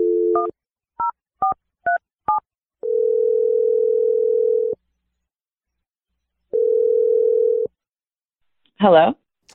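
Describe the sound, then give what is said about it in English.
A telephone number is dialled: a short dial tone, then a few quick keypad beeps at different pitches, followed by two long, steady ringing tones separated by silence, and a brief voice at the very end. “I'm gonna dial the number right now. Here we go.”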